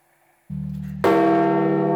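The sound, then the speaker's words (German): A church bell at St. Peter's Basilica in Rome tolling at midday, first a deep low hum, then a loud, bright strike with rich ringing overtones that sustains without fading. “Die Glocke im Petersdom verkündet am Mittag den Tod des Papstes.”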